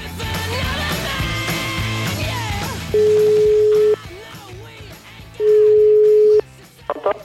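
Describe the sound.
Telephone line tones while a phone call is placed: two steady, pure beeps of about one second each, separated by a pause, after music and background sound at the start.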